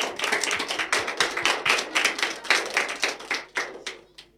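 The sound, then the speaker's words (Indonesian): An audience claps at a school performance event after a group performs. The claps are sharp and distinct, with a loose rhythm, then thin out to a few scattered claps and stop. “Beri tepuk tangan untuk teman-teman kita.”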